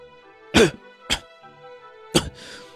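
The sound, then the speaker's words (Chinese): A man with a badly sore throat coughs hoarsely a few times in short, separate bursts over a steady musical backing. “嗓子疼得厉害，他难受地咳了两声”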